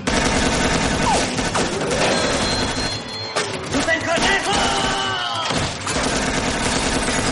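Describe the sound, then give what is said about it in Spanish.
Gunfire crackles in an action comedy film scene from 2003, with shots fired into a mailbox, as repeated sharp bursts in a loud, dense, busy mix of sound effects. “Cornejo les dispara dentro del buzón hasta que el compresor de acero cae sobre él aplastándolo.”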